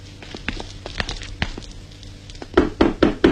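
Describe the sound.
Knocking on a door during a staged comedy sketch: a few soft, spaced raps, then a louder cluster of about four quick knocks near the end.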